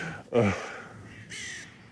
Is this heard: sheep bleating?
no